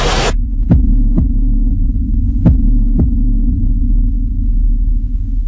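A heartbeat sound effect with soft, low thumps arriving in two double-beat pairs over a loud, steady low hum that runs through the whole sound.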